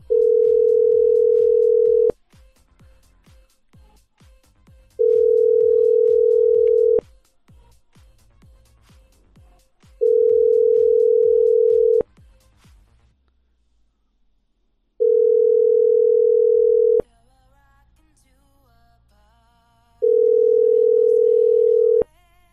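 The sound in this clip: Telephone ringback tone heard while a number is dialed: five steady, single-pitch beeps, each about two seconds long, repeating at even intervals. Quiet gaps between them carry faint clicks and a low hum.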